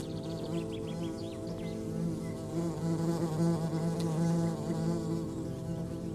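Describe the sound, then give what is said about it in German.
Wasps buzz under a fig tree where a cluster feeds on a fig, a continuous droning hum of overlapping wingbeats that stays steady and fairly quiet for several seconds. “Die Wespe, die sich der Herr gerade mit seinem Stock vom Leib gehalten hat, gesellt sich zu einem Wespenpulk, der gerade eine Feige unter dem Feigenbaum zerfleischt.”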